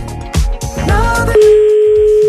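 A telephone ringing: a steady, loud electronic tone holding one pitch starts partway through and runs to the end, after a few brief tonal bursts.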